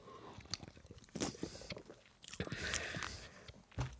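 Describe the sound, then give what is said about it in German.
Slurping sips of mate, with wet sucking and squishy mouth noises as the drink is drawn in with air, coming in a few quiet bursts. “Hm, ich trinke nochmal einen Schluck Mate.”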